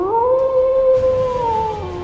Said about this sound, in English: they find themselves face to face with a vicious dire wolf.